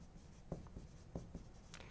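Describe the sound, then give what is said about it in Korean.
Handwriting during a lesson on bar and pie graphs: faint, scratchy pen strokes over a soft steady hiss, with a few slightly louder strokes standing out. “그래서 그 모양 차이점을 한번 써볼게요.”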